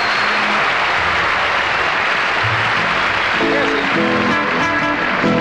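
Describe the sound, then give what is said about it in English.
An audience gives a warm, loud round of applause to welcome recording star Mel Tillis, a dense, unbroken clatter of clapping with musical tones rising through it toward the end. “I want you to give a real great welcome to Cap Recording star, Mr. Mel Tillis. Let's give him a nice hand.”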